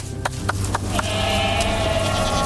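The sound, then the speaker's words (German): Goats being fetched from the pasture: a few sharp clacks in quick succession, followed by continuous, dense, loud noise with no clear talk. “Nachher holen wir die Geissen ab der Weide.”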